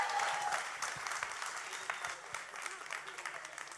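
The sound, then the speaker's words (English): An audience claps for a Bulgarian dancing performance, a fairly quiet, steady patter of applause that tapers slightly toward the end. “Come on, let's give it up for the Bulgarian dancing.”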